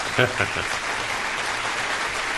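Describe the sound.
Studio audience applause greets a guest author and playwright, a steady, moderate wash of clapping that holds evenly throughout, with a brief voice near the start.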